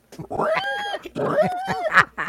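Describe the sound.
A human voice imitates a pig squealing in two long, loud, strained bursts with wavering pitch, separated by a brief pause.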